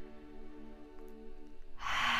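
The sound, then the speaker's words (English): A deep breath taken during a guided breathing exercise, a soft airy rush that starts near the end over a steady, quiet, low droning tone. “Take a deep inhalation and a deep exhalation.”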